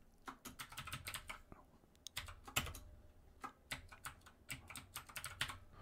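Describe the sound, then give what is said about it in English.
Typing on a computer keyboard: quiet, irregular clicking keystrokes in quick bursts, with short pauses between clusters, alone without talk. “And I'll type it into chat. Just so we have a record.”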